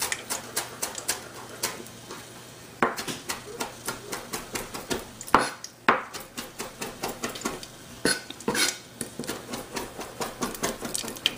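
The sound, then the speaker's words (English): Parsley is chopped quickly, a long run of many brisk, evenly spaced taps in a steady rhythm, fairly soft, with brief pauses between bursts. “I'm just quickly gonna chop just some of my parsley here.”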